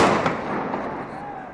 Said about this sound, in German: Immer wieder detonieren Tränengasgranaten.